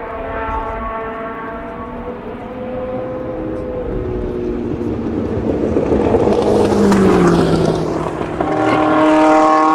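A Formula 1 racing car engine with a faulty rev limiter revs up as a sustained, harmonic, buzzing drone. It swells louder and climbs in pitch through the second half.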